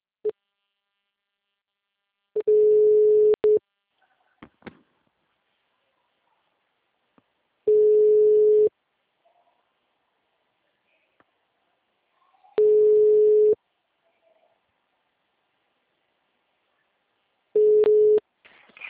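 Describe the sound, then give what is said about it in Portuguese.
Telephone tones sound as a call is being placed: four one-second beeps at a single steady pitch, spaced about five seconds apart, with a few faint clicks in the silences between them. “vou começar a fazer a ligação.”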